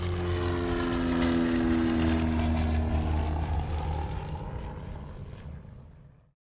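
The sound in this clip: A propeller airplane taking off, its engine drone loud and steady at first, then gradually fading away toward the end.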